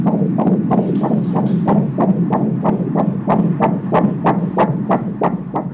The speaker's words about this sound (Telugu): ముందు మరి baby heart beat అది చెక్ చేద్దామా?